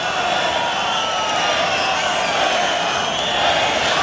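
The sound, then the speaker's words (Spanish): An angry bullring crowd protesting during a bullfight, a dense, sustained roar of many voices that stays loud and even from start to finish. “El público está muy enfadado y protestando las condiciones de la lidia de este toro.”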